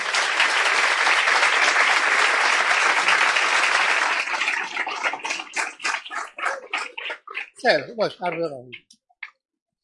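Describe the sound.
Audience clapping at a meeting: dense, loud applause holds for about four seconds, then thins into scattered separate claps that die away, with a voice speaking near the end.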